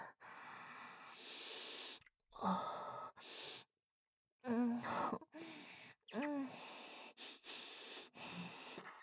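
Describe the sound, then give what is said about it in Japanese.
Deep breaths drawn in to inhale a bad smell: several long, loud breathy inhales and exhales split by short silent gaps, some with voiced gasps and sniffs. “臭い匂いを深呼吸して吸い尽くしちゃいます。”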